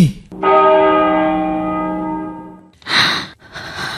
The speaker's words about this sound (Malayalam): ആ പള്ളിമണികൾ വിശ്വാസിയെ വിളിക്കുന്ന വിളികളാണ്. 3 മണി കൊട്ടു.